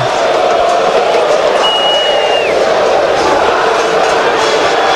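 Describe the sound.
Football stadium crowd at Independiente's ground, a dense, steady roar of many voices that holds evenly loud throughout, with no clear breaks or peaks.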